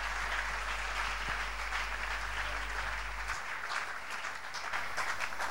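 Applause from a church audience acclaiming God during a prayer gathering, a soft, steady wash of many hands clapping that holds an even level throughout.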